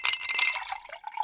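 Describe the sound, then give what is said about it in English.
Cool water being poured into a glass: a bright, splashy rush of liquid that runs steadily throughout, with a clearer ringing tone emerging near the end as the glass fills. “That's the sound of your favorite college mascots pouring a glass of cool, refreshing water.”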